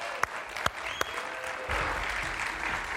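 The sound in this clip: An audience at a church morning service applauds to welcome a speaker on stage. Three separate sharp claps come first, then a fuller, steady round of applause from many hands fills the second half.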